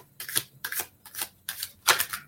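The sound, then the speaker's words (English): A deck of dragon cards being shuffled: five crisp, evenly spaced riffling bursts, each a bright papery flutter followed by a short gap. “Trying to shuffle here.”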